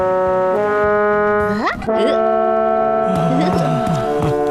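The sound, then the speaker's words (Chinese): A ship's steam whistle blows without stopping, a loud, steady harmonic tone that swoops briefly in pitch midway, then a second, wavering lower tone joins in toward the end. “这汽笛响起来没完没了，我实在是顶不住了。”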